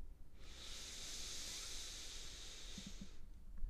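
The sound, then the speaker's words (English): A long, deep nasal inhale taken during a guided breathing exercise: a single steady, airy hiss that lasts about three seconds, heard alone with no talk. “We're going to take an inhale through our nose.”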